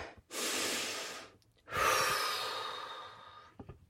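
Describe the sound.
Deep, nervous breathing: two long, loud breaths, each a steady rush of air that swells and then fades, with a short pause between them and no talking.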